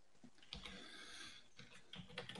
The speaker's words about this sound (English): I got to type that in.